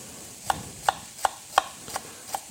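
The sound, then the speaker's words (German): A knife cuts small peeled shallots into thin strips on a board, six evenly spaced, crisp chops, the last two slightly softer. “Zwiebeln oder Schalotten, je nachdem, was man da hat. Ich habe jetzt hier kleine Schalotten genommen. Einfach in dünne Streifen schneiden.”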